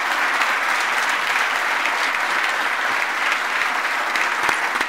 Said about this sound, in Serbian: hvala na aplauzu